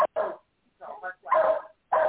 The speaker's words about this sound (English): his dog, that's his dog, not mine. Mine don't bark unless you don't like me.